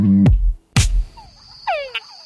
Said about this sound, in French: Les dames grenouilles Tungala sont séduites par les chants des troubadours, dans lesquels le gémissement est suivi par le plus grand nombre de tchaks.